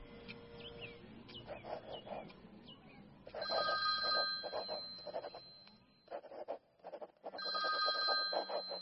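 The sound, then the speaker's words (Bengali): A telephone rings in loud, sustained electronic bursts separated by a brief gap, following a stretch of softer, higher chirping sounds. “রোহিতের phone এলো 3 ঘন্টা পর।”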